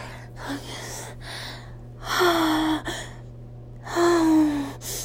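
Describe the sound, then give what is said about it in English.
Ragged gasping of a person out of breath and covered in sweat: a series of heavy inhales and exhales, including two longer voiced, sighing breaths that drop in pitch. “my God, I can't even catch my breath. My breath.”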